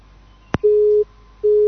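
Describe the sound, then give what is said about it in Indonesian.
A telephone busy signal sounds after a call is cut off: a sharp click, then a steady low-pitched tone, a short gap, and a second identical tone starting, with no voices. “Sayang sekali terputus”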